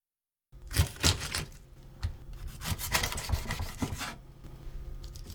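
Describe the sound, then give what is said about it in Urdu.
Knife cutting the head off a scaled fish from its underside: a series of rough, rasping, sawing strokes, loud at first and then steadier, with no voices. “اس کے بعد سر کو اس کی نچلی طرف سے کاٹ دیجیے۔”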